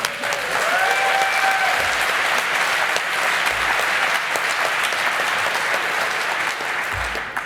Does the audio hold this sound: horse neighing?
no